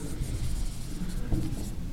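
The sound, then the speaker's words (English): Handwriting during a lecture, a steady dry scratching and rubbing that runs unbroken for about two seconds at a moderate level, with no voices over it. “Let me write this down here. The author of 1 Samuel.”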